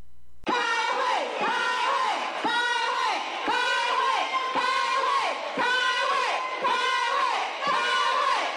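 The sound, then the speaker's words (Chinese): Legislators in Taiwan's Legislative Yuan shout in protest during a chaotic procedural dispute, with lawmakers occupying the chairman's podium. Many voices chant together in loud, regular bursts repeating roughly once a second throughout. “朝野两党围绕服贸协议的审议还没有开始，就围绕程序问题相互呛声，高声叫喊，一片混乱。民进党立委占领主席台，国民党立委大声抗议。”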